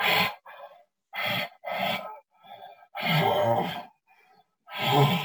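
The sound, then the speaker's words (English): A human voice imitates a bull's panting call during the rut: many rhythmic, breathy huffs, with loud forceful exhales alternating with fainter, shorter intakes of breath. “When you start using grunts and glunking and groans and panting, those types of things, and panting's kind of like,”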